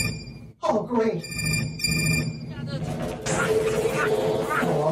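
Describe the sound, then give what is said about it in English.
A telephone rings in a few shrill, trilling bursts during a busy action scene, with voices and commotion around it. “Hey, that's my phone.”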